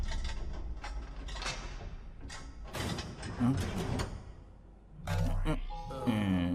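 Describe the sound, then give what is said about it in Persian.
Hangar doors locking: heavy mechanical sliding and clanking with several sharp bangs, a loud surge of grinding near the end, and voices breaking in briefly. “این صدای قفل شدن درای آشیانه بود.”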